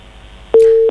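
Telephone busy tone after a caller's line dropped on a phone-in request line: one steady, mid-pitched tone starts about halfway through and holds to the end over faint line hiss.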